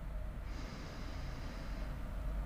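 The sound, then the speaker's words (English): A single slow, soft breath during a breathing exercise, heard as a gentle hiss lasting about a second over a low, steady background rumble. “So breathing in and out. Breathing in”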